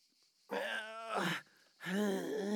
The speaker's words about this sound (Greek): Για ακούστε! Τι είναι αυτό? Κάποιος βουγκάει! Από πού ακούγεται?